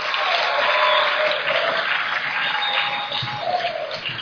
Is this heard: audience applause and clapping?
yes